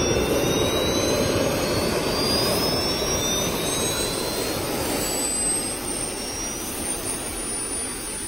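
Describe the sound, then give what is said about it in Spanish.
Jetpack turbines on the hands and backpack spool up as the thrusters start, giving a loud, steady jet roar with thin whining tones that climb in pitch throughout. “Bueno, las turbinas, se prenden los propulsores, ahí empieza el video de nuevo. Pero está bueno con el sonido ambiente.”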